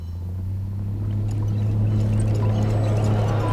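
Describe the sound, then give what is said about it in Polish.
Dishwasher nozzles spray water onto a dirty plate caked with dried sauce and pasta, a steady rushing hiss that swells over a low, continuous machine hum. “Dysze wystrzeliwują wodę prosto w resztki sosu. Zaschnięty makaron kawałek po kawałeczku odpada z brudnego talerza.”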